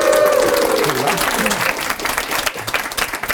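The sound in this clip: A studio audience at a live recording in Stockholm bursts into loud, dense applause that holds steady and thins slightly toward the end, with a voice over the start.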